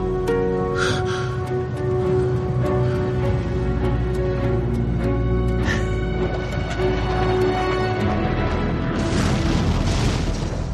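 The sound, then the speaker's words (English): Heavy explosions from jets carpet bombing a base: a continuous, loud, dense low rumble with layered booms and steady tonal layers, holding at the same level throughout. “I love how you see in the background the jets just carpet bombing the whole base.”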